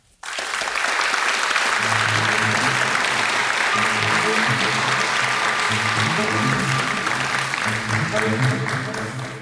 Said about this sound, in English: Please give a warm hand.